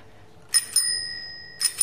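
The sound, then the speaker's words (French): A bicycle bell on a 1960 bicycle rings four times, bright and metallic: two quick strikes, then a short pause with the tone still ringing, then two more strikes. No voices are heard. “je suis très contente de voir ce vélo de 1960. Hein, et puis la sonnette marche normalement puisque l'artisan me l'a mise.”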